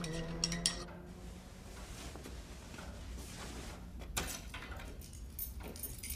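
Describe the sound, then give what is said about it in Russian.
Door being closed as someone leaves a room, faint clicks and light metallic rattles with a couple of sharper knocks against a quiet background. “Уходит, закрыв дверь.”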